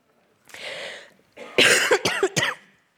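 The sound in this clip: A few harsh, forceful coughs in a quick cluster from someone with a lingering cough, preceded by a softer breathy rasp and short pause; loud and alone, with no talk.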